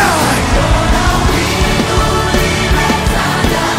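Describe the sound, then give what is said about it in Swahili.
Congregation shouting during a church service: a loud, dense and continuous roar of many voices that keeps going for the whole stretch. “Kama unaamini, piga kelele.”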